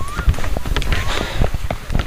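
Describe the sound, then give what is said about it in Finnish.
Footsteps in sneakers on wooden duckboards strewn with yellow birch leaves, slightly slippery on a misty, warm autumn morning. Many steady, soft thudding steps come in an even walking rhythm. “Kävelemme puolisen kilometriä, lähinnä pitkospuita summuisena lämpimänä syysaamuna, vähän ennen 8. Maassa on jo jonkin verran koivunkeltaisia lehtiä, ja pitkospuut tuntuvat siinä lenkkareiden alla vähän liukkailta.”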